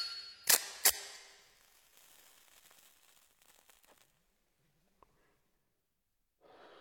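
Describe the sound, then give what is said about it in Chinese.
Someone lights a cigarette after stopping his car at night, with two sharp lighter clicks in quick succession followed by a soft hiss that fades into quiet, then a faint breathy rush at the end. “高鑫点上一根烟。”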